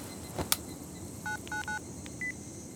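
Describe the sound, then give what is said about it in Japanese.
Telephone keypad tones sound as a number is dialed to make a call: a couple of sharp clicks, then about four short, steady electronic beeps in quick succession. “じゃあ電話してみます。”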